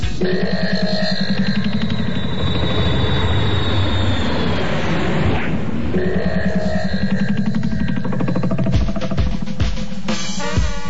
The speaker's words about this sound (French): Il est vraiment rapide ce nouvel avion. Même pas le temps de décoller.